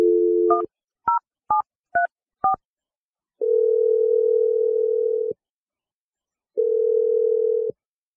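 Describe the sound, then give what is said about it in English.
A telephone number is dialed for a prank call. A dial tone gives way to a handful of short, evenly spaced keypad beeps, followed by two long, steady ringing tones separated by silence. “We're going to dial Vicky's number right now. We'll hopefully get her on the line so we can ask her what the deal was.”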